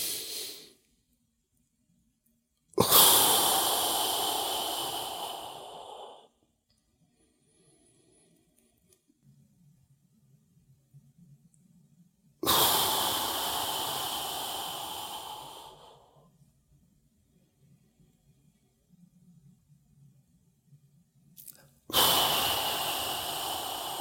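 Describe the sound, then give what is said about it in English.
Yogic breathing, with air blown out around the tongue tip pressed to the ridge behind the upper front teeth. Long, loud hissing exhales of several seconds each are separated by quiet gaps. “touching the tip of your tongue to the ridge of tissue behind your upper front teeth, like that. So you blow air out around it.”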